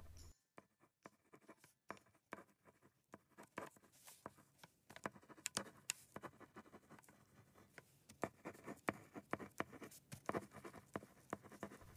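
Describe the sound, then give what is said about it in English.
Pen writing a letter on crisp paper: many faint, dry, scratchy strokes in irregular bursts, each with a papery rasp, with brief pauses between groups of strokes. “The pen glided on the crisp paper”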